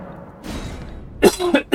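A few short, harsh coughs near the end, following a stretch of quieter background noise.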